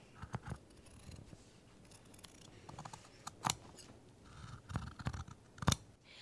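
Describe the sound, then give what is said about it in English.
Scissors cutting fabric along a pinned sewing pattern in a theater costume workroom: a series of quiet, crisp snips at an uneven pace with short gaps between cuts, and no talk. “And she will cut it out and then we can sew it together.”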